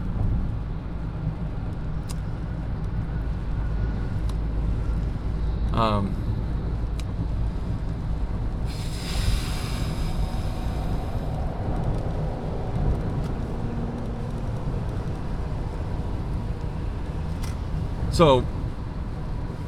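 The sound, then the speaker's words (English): Road traffic in the rain makes a steady wet roar and hiss, with one vehicle swishing past midway and a few faint chirps over the constant noise. “sorry, this traffic, it's raining and shit. People are driving like fucking lunatics.”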